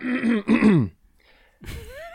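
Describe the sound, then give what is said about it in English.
A person clears their throat in two short, gruff voiced bursts, then pauses before one more brief vocal sound. “Yeah, just a little frog in the throat.”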